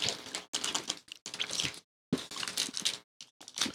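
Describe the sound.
Crunching and chewing on a piece of gingerbread toffee candy: wet, squishy bites and crunches come in several bursts separated by short silent pauses, with no talking.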